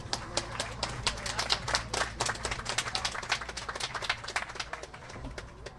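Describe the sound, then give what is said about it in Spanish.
Audience applause at a civic event with officials invited onto a stage, a dense, steady patter of many hands clapping that holds at an even level throughout, with no talk over it. “Un aplauso, por favor.”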